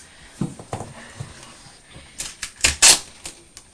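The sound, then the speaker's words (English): Sticky tape is cut for wrapping a present. A few scattered soft taps lead into a louder cluster of crackly, rasping bursts near the end. “Oh, we're just cutting some sticky tape, actually, for Becky's present.”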